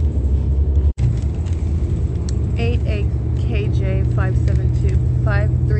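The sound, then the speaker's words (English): A car drives out of an airport at night, turning onto the exit road from a terminal. A steady low road rumble runs throughout with a brief cutout near the start, and faint voices sit over it. “So we're on turning onto Airport Drive now, exiting out of the airport from Terminal 4.”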